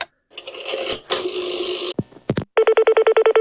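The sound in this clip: A telephone bell rings in a rapid, even string of loud pulses as a call is placed, preceded by a burst of clattering mechanical noise and a few sharp clicks.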